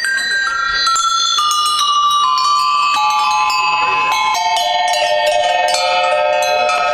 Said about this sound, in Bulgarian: Как се изработва чан? Формира се в земя, в пръст се формира с модели и се топи материала и се налива.